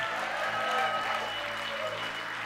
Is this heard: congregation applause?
yes